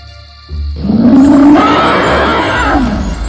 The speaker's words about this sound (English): the dragon opened its fierce eyes and looked up. Seeing the two men, she roared loudly.